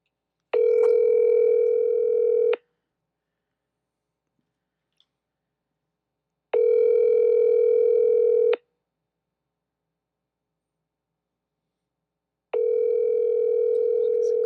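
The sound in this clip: A phone call's ringing tone plays over a speakerphone: three steady buzzing tones, each about two seconds long, evenly separated by long silences.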